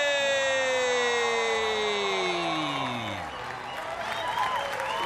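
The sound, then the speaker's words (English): A live comedy-show audience screams, cheers and applauds loudly as comedian Michael Che comes on stage, with a long falling electronic tone sweeping down over the crowd noise. “Thank you so much for screaming. That was unnecessary.”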